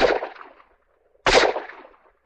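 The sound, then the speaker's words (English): Two revolver shots fired in rocky ground near an abandoned mine shaft. Each is a loud, sharp crack with a ringing tail that fades over about half a second, and a brief silence separates them. “Two revolver shots told me his rifle was out of commission also”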